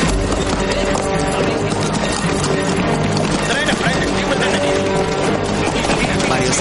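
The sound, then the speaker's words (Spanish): Horses' hooves of a group of riders approaching along a town street in a western drama, a steady, loud clatter of many hooves within a dense mix, with talk over it. “el editor del periódico de la ciudad sale a la puerta y observa que un grupo de jinetes se acerca por la calle”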